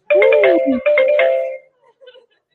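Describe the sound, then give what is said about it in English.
A phone rings for an incoming call: two loud bursts of a melodic electronic ringtone, followed by a few fainter notes trailing off. “Oh, we got a caller, everybody.”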